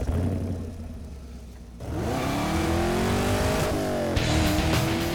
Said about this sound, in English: driving the 2019 Camaro 1LE Turbo.